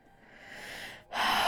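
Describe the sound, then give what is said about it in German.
A person takes a deep breath: a soft, airy inhale swells for about a second, breaks off in a brief pause, then gives way to a louder, breathy exhale. “tiefer Atemzug”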